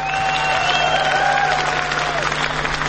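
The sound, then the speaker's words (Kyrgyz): Dense, continuous audience applause with crowd noise, honoring a Kyrgyz patriots' team at a Kyrgyz-language event. Faint sustained tones run through the loud, unbroken clapping. “Өзгөчө кол чаап коюңуз, урматтуу достор, патриоттор.”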